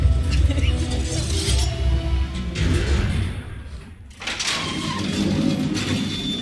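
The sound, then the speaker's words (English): Elevator doors close and the elevator rides down: heavy rumbling and clunking, a brief lull, then a sustained low mechanical rumble that carries on to the end. “Please, get in this elevator with me, and we will ride down.”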